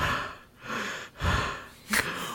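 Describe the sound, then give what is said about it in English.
A voice imitates out-of-breath panting: a few heavy, ragged, breathy gasps in quick succession, moderately loud and with no words. “I think at this point, Moonshadow would come up like very out of breath.”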